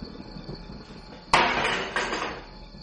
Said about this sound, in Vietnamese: đá văng đi cái bàn đặt cơm